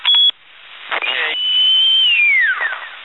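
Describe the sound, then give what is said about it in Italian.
A high, clear whistle is held steady for over a second, then slides down in pitch and fades. It follows a short, loud electronic beep and a brief noisy burst. “Chi è che fischia così?”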